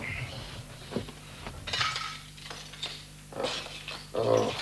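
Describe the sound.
Cups and a kettle clatter while tea is made, a few scattered clinks and knocks of crockery and metal amid quieter background sounds.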